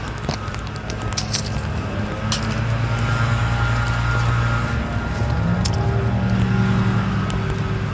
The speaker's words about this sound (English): Oh no, that other sound is actually a trash truck. Or maybe it's a recycling truck, I'm not sure.